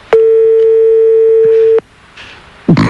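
A telephone line rings back while a call is placed to a production office. One long, steady, loud tone holds for about a second and a half, then gives way to faint line noise and a short rustling burst at the end.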